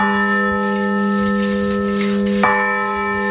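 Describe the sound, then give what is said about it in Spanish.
A repaired church bell rings in Granyena de Segarra: the bell had cracked in the cold in 1941, was restored by a specialist firm, and now hangs from a newly rebuilt wooden yoke. Long, steady, resonant overtones sustain throughout, then one fresh strike renews them partway through. “ranyena de Segarra, la campana de l'església de Santa Maria torna a sonar després de 85 anys de silenci”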